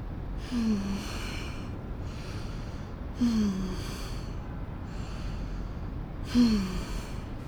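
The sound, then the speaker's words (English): A person takes slow, deep breaths: three loud, airy inhalations recur at even intervals with softer exhalations between, heard alone without talk. “I'm taking deep breaths.”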